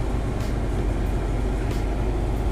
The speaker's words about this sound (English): My fault, I'm at a car wash and shit. It's like 90 degrees out here already. So, but yeah, my fault. Like I said, I'm at a car wash.